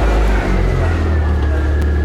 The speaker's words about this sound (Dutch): Autogeluid.